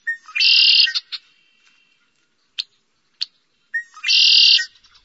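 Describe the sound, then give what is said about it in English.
Red-winged blackbird calling in a wetland: two loud, buzzy, high-pitched trills, each led by short chip notes, with a few sharp single calls in the quiet gap between them. “Two birds most commonly seen and heard in Utah's wetlands are the red-winged blackbird”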